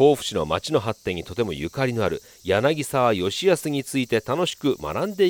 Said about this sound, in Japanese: 元気にセミが鳴いております。